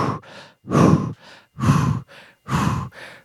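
Quick, heavy breathing while running: loud, breathy exhales alternate with softer inhales in a fast, even rhythm, with no other sound.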